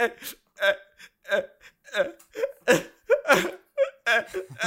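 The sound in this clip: A man crying and sobbing hard, with many choppy, hiccuping voiced bursts and strained pitched wails, separated by short breathless gaps in an uneven rhythm.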